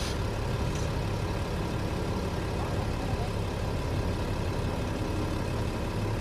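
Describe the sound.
A car engine drones while the car is being driven, blending with steady road and cabin noise. The low, even rumble holds a constant level throughout, with no distinct events standing out.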